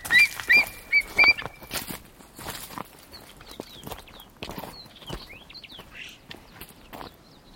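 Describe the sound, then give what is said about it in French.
Footsteps climbing a mountain trail: uneven crunching steps, firmer and louder at first and then softer, with high bird chirps scattered over them. “toujours en train de marcher”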